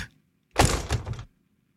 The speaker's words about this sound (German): Da macht man irgendwas zu oder haut man einen Schrank zu, eine Tür ja, zu? Richtig.